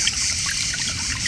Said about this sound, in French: Vous installez une table à l'ombre d'un figuier, tout près du murmure de la fontaine.